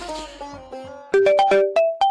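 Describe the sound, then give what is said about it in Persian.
A phone's text message notification tone plays, a quick run of bright plucked electronic notes after softer sustained tones. “یه پیامک اومده.”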